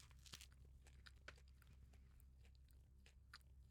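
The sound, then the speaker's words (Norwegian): A big bite of spicy tuna food brings crunchy biting and chewing, a few crisp crunches early on followed by softer repeated chewing, all very faint. “Så da tar jeg og tar et stort bit her.”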